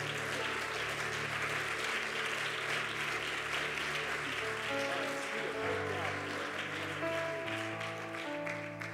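Applause from a church audience welcoming a pastor onto the stage: steady, dense clapping that holds at an even level throughout.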